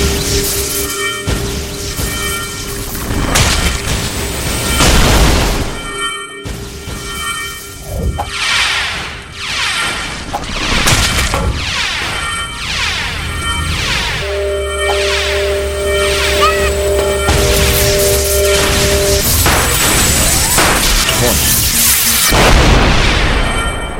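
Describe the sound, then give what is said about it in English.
Booms and crashing bursts from a video game as a spinning energy ball destroys things, many loud impacts and whooshes piling up continuously over a dense, steady din. “An energy ball 9 spins around and destroys anything at range.”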